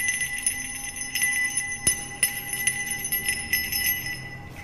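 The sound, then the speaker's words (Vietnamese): A small black brass bell is shaken repeatedly, giving bright, piercing, sustained ringing tones with many quick irregular strikes and one sharper hit near the middle, with no voices. “Thầy bắt đầu rung chuông, vang lên những tiếng lanh lảnh.”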